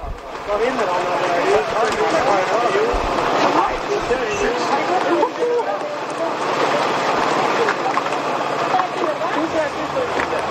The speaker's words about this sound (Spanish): Son los corredores dando voces, algún aterido de frío, le veíamos tiritando ahora a un corredor de Cofidis que entraba en ese local.